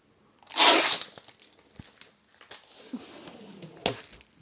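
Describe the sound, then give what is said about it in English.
Pages are ripped out of a diary in one loud, quick tear, followed by faint rustling and handling of paper and a sharper crinkle near the end. “Oh God, he's also ripped some pages out of other diaries.”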